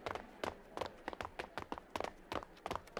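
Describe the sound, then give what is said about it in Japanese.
Running footsteps, many quick, light taps in a steady, brisk rhythm, fairly quiet throughout. “そんなに走って大丈夫なのか？ 私は走るの好きだよ。”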